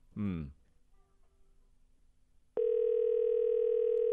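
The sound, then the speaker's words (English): A steady telephone dial tone begins loud and unbroken partway through and holds to the end, after a brief voice at the start and a quiet gap. “Which dialing tune is this one now? I don't know. Doesn't sound like a real one.”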